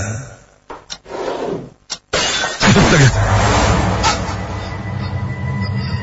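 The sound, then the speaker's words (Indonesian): A glass slides off a table and shatters: a few sharp knocks and scrapes lead into a loud breaking crash, followed by sustained clattering noise. “Gelas di atas meja itu bergeser dan terlempar hingga pecah.”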